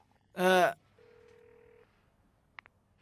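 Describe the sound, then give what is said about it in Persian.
A telephone call is being placed. After a short voice, a steady electronic tone lasts under a second, then two brief beeps sound over quiet background. “بذار بهش زنگ بزنم. من میزنم. اتفاقا الان تو فکرش بودم، من میزنم.”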